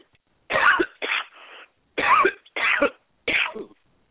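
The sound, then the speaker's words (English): Dry coughing from a tickle in the throat: a run of about five short, harsh coughs in an uneven rhythm, with brief pauses between them and no talking. “Excuse me, got a little dry tickle in my throat.”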